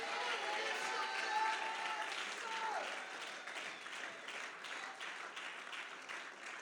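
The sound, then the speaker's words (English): A church audience claps and cheers in a steady, dense wash of applause, with voices rising through it. “Clap your hand. Stomp your feet. Come on, somebody. Open your mouth. Don't sit there like you're dead. You're not dead. You're alive. Make some noise in the house.”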